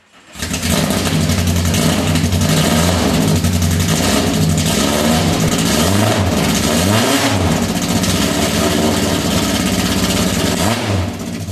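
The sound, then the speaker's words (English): A car engine revs lightly with a few short throttle taps that stay under 3,000 rpm, rising briefly in pitch over a steady, loud engine drone. “the revs we just heard were under 3,000. Yeah, yeah. He was just tapping it, just a little tap. Yeah. All right. Let's hear it again.”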